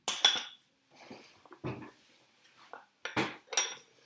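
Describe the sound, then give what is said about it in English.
Metal cutlery clinks and clatters as it is loaded into a dishwasher. Several uneven bursts of bright rattling are separated by short pauses. “We're going to fill the dishwasher with cutlery. That's okay. Let me take them all out.”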